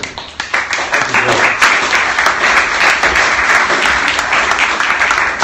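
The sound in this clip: Applause from an evening audience welcoming a speaker to the lectern: a few scattered opening claps quickly swell into dense, steady clapping from many hands, holding at an even level throughout without talk.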